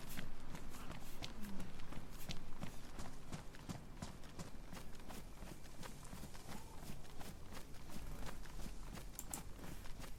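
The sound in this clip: Footsteps of a character walking out of town in a zombie video game, a faint, steady run of many evenly spaced taps that continues throughout.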